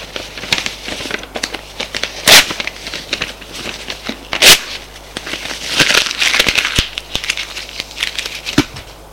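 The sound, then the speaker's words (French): Paper letter being torn up: two sharp, loud rips stand out amid ongoing crinkling and crackling handling of the sheet. “il déchire la lettre.”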